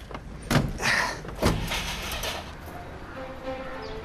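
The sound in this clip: A car door shuts with a solid thud as someone climbs into the car. A short, loud knock stands over a low, steady background hum.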